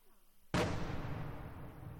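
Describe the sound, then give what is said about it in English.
A single heavy boom of outgoing fire from an artillery piece near a village bursts suddenly out of a quiet background. A long rumbling tail follows and fades slowly. “The boom of outgoing fire, a pro-Russian artillery piece, can't be far from the village.”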